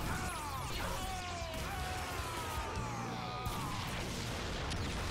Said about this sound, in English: One slash for each sword combo.